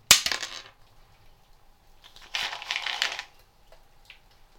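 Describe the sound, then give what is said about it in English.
Almonds dropped onto a foil tray make a sharp, crinkly clatter at the start, then a longer rattling spill of small hits, and finally a faint single tick, heard alone. “Almond, foil tray.”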